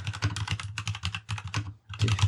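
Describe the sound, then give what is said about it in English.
Rapid typing on a solid, flex-free portable computer keyboard: dense runs of clicking keystrokes in bursts, with a brief pause before a final flurry, over a low steady hum. “It's just no flex at all with the keyboard itself. And typing is an absolute dream.”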